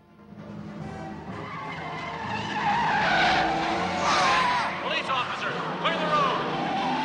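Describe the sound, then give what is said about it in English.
A convertible drives off from a mansion, its engine building to a loud roar with squealing, skidding tyres, set in a dense layer of other background sound. “drives a convertible away from the mansion.”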